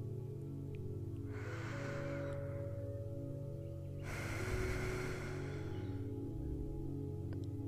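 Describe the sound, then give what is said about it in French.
A deep breath in during a mindfulness breathing exercise: soft, airy breath sounds in two stretches over a quiet, steady musical drone. “Prenez trois grandes inspirations.”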